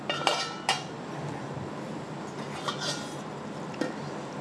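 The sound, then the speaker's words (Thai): Sifting a dog-food mixture containing neem through a sieve: a steady soft rustling hiss broken by a few sharp metallic taps and clinks of the sieve. “เดี๋ยวเราจะเริ่มการร่อน เสร็จแล้วเราก็จะร่อนนะคะ”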